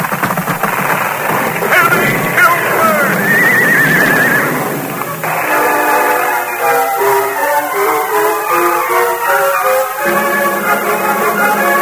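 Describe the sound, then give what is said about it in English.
Horse hooves thunder across a swaying wooden bridge in a radio drama effect, a loud, continuous rumble with a horse whinnying over it. “Silver's muddy hoof thundered on the board. The bridge swayed and trembled.”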